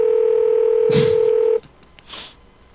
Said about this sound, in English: To place a call, press 2. Please enter the phone number you would like to dial.